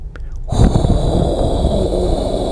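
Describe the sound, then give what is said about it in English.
A voice imitates a tumbleweed rolling by with a steady, breathy, hissing exhale. It starts abruptly after a short quiet moment and holds evenly for about two seconds. “That's meant to be the sound of the tumbleweed, you know?”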